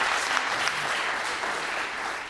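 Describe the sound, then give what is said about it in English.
Audience applause for a guest at a live show, a thick, steady burst of clapping that eases off slightly at the end. “Let's clap it up for the big guy. That was great.”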